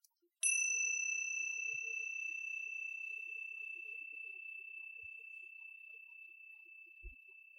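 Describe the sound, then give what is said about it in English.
A meditation bell struck once, giving a bright, high, clear ring that sustains and slowly fades over several seconds in near silence, with a few faint low thumps. “The bell is only there for you to notice the movement of time.”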